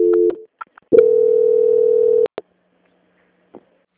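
A telephone call-transfer tone: a short steady tone and a couple of faint blips, then one sustained, even tone lasting over a second that ends in a sharp click. A faint click follows after a pause.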